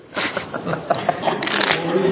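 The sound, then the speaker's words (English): Playing cards are shuffled and dealt for a game of blackjack: quick papery riffles and flicks, with a burst of soft slaps and snaps crowding one after another. “So I'm going to deal out one card face down and one card face up.”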